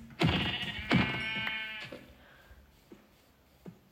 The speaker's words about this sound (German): Okay, zum Glück gibt es hier so viele Schafe.